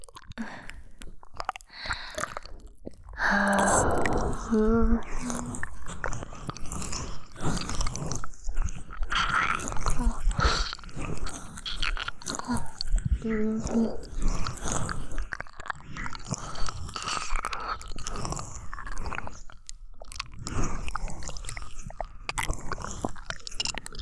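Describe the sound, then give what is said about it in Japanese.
Wet mouth sounds of an ear being licked, with continuous soft smacking, slurping and clicking throughout and occasional brief tonal squeaks. “お耳もレロレロして、もっともっと固くしてあげる。”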